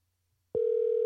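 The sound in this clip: A steady telephone line tone on an outgoing call cuts in abruptly after a moment of near silence, then holds one unbroken mid pitch to the end with no voices.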